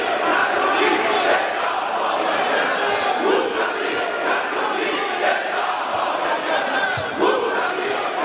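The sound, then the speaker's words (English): Massed chanting from a crowd of Iranian legislators calling for death: loud, rhythmic shouting of many voices in unison, sustained and steady throughout. “that's the sound of radical Islamists in Iran calling for the death of Muslims who would like a little freedom.”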